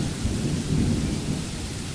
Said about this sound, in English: Oh dear. It is raining hard. It is raining exceptionally hard.